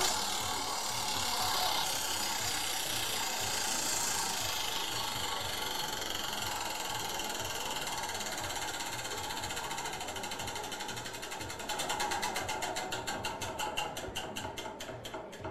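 A prize wheel spun during a giveaway gives a steady mechanical whir, then a run of rapid, evenly spaced ticking clicks near the end.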